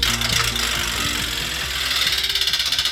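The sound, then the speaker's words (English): A prize wheel spins, its pointer clattering in a dense run of rapid ticks that carries on steadily throughout. The ticking becomes slightly more distinct toward the end. “when I spin the wheel. Here we go.”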